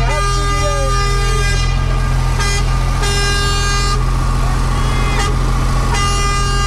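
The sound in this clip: A truck rolls right past a waiting crowd, its steady low engine drone joined by sustained horn-like tones that break off and resume a few times, with voices present throughout.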